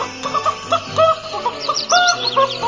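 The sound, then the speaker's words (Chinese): A rooster in a village gives many loud, short clucking calls in an uneven rhythm, with a few higher chirping notes. “大公鸡的声音高亢又响亮，整个村子里的人一听到大公鸡唱歌都会起床开始一天的工作呢。”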